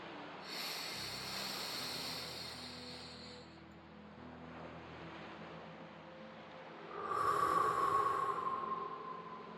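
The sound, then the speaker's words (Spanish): Deep breathing, with slow, airy breaths drawn in and let out over soft, steady background tones. The last breath swells louder toward the end. No one speaks. “Respiro profundamente.”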